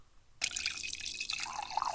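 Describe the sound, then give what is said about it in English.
Coffee being poured into a cup: after a brief quiet, a steady, bright trickle of liquid starts abruptly and continues with a light splashing texture. “Let me pour you some coffee.”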